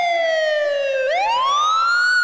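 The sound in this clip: Ambulance siren wailing loudly on its own: the tone glides slowly downward, then sweeps sharply back up and keeps climbing.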